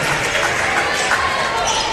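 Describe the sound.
A basketball is dribbled on a court during a game, with its bounces buried under a constant wash of crowd noise and a play-by-play voice.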